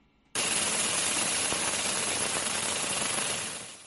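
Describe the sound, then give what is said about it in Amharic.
Engine of a solar-powered Aftrak tractor built for smallholder farmers' fields, starting abruptly into a loud, harsh, continuous rattling drone that holds steady and then fades slightly near the end. “እዛ ብፀሓያዊ ፀዓት እትሰርሕ ኣፍትራክ ዝተባሃለት ትራክተር መሬቶም ንዝተረሮም ንኣሽቶ ሓረስቶት ንምሕጋዝ ዝዓለመት እያ።”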